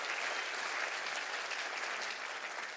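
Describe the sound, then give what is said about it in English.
Applause from a church audience during a worship service: dense, steady clapping that holds at an even level for about three seconds, with no voices over it. “Are you with me? Clap your hands real big right now.”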